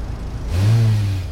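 A car engine revs as a driver stuck in a traffic jam presses the gas pedal: a low, steady engine hum swells suddenly, holds for under a second, then eases back.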